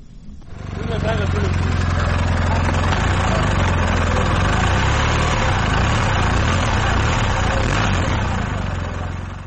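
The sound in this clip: A motorcycle engine running on a touring bike used for a long-distance ride from Oslo, a loud, steady low drone that swells up at the start and holds evenly before tapering slightly at the end.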